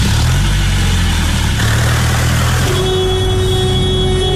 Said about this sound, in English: You said I should put my foot down. Yeah, but I didn't mean drive like a maniac.